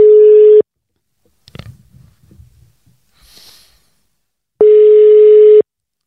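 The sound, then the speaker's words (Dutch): Telephone ringing tone sounds while a call is placed to someone: two long, steady mid-pitched electronic tones, one at the start and one near the end, with snorting and breathing sounds between them. “we zullen even gaan bellen, kijken hoe het met hem is.”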